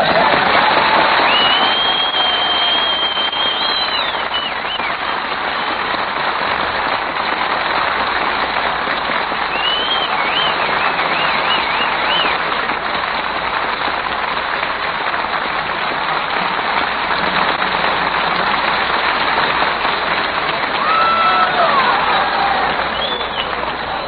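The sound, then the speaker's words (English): An audience cheers and applauds in a dense, sustained roar of clapping and shouting that holds at a steady loudness throughout, with no single voice standing out. “Is that the audience?”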